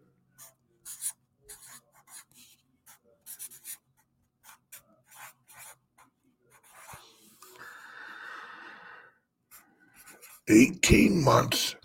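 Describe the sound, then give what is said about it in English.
Pen scratching as something is written down by hand, a steady scratchy rasp lasting a few seconds, preceded by scattered short faint taps and followed by a louder burst of sound. “I'm going to write down.”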